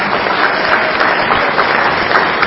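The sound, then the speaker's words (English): An audience at a candidates' forum applauds all the election candidates, with loud, dense clapping that runs steadily throughout without pause. “Can we give all the candidates a round of applause?”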